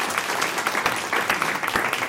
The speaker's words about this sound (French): Vous pouvez l'applaudir, oui.